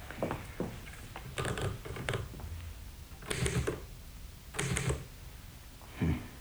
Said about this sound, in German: Die Schreibmaschine.